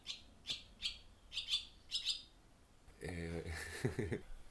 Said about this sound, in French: on est dans la maison là et on entend le bruit des oiseaux puisqu'il y a un oiseau au-dessus de nous sur le fil électrique. Il y a une hirondelle à comme 2 mètres